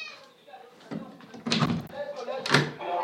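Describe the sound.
A cupboard door is opened with a couple of sharp knocks and thuds, amid a voice and low background noise.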